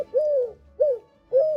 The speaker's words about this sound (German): Ja, ist eine Türkentaube.